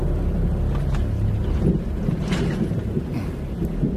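A car driving along a road past a hotel toward roadside cabins: a steady low engine and road rumble drones without a break, with faint swishes of passing air and no voices.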